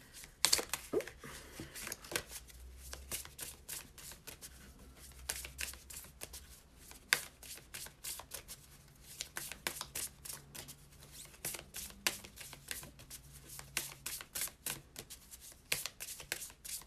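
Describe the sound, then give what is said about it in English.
Soft shuffling of a Pure Magic Oracle card deck, with a card drawn from it. Many light, crisp paper flicks and rustles run throughout at a low level. “Let me pull a Pure Magic Oracle card to go along with this.”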